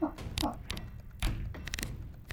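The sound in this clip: Dice rolled on a table during a tabletop role-playing game, heard as a few dull taps and thuds with short clattery bursts between quieter moments.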